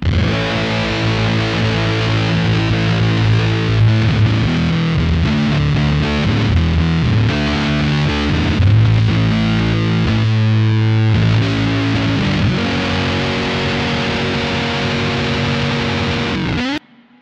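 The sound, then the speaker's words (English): Electric guitar runs through a Beatronic Swarm fuzz harmonizer pedal at high gain, giving thick, distorted, mangled chords with stacked harmony tones. It plays loud and unbroken for about sixteen seconds, then cuts off abruptly. “Another pedal used in this is the Beatronic Swarm pedal. It's a fuzz harmonizer, and it functionally mangles everything passed into it with this really beautiful high gain sound.”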